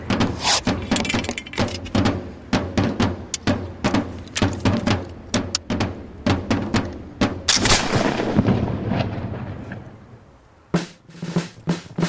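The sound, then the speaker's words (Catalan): Musket gunfire from 18th-century infantry: many sharp, loud cracks in an uneven volley, swelling into a denser rolling roar midway, then a brief lull before a few final sharp shots. “Disparar. Preparar l'arma per a disparar costava un minut.”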